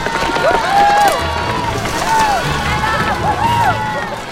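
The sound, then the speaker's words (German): A horde of children runs downhill pushing a girl in a wheelchair, with a busy rush of movement and crowd noise and high, squealing calls rising and falling over it. “Margarete saust im Rollstuhl eine Straße runter. Und eine ganze Horde von Kindern schiebt sie an und läuft ihr hinterher.”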